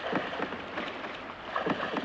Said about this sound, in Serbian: Tako su se oni vozili u čamcu za okupljenim mislima i vesla, kao pucni, sve tucale su u njihovim rukama.